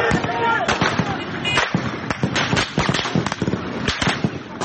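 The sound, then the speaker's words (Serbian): Gunfire crackles through Istanbul's streets at night during a military uprising, with tanks out. Many sharp, irregular cracks and bangs come in quick clusters over a steady background roar. “Zvuci koje čujete, zvuci pucnjave, zabeleženi su noćas na ulicama Istanbula.”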